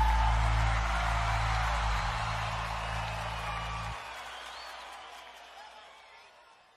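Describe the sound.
Audience applause and cheering for a singer at a show, a broad wash of clapping that slowly fades, with low music stopping partway through.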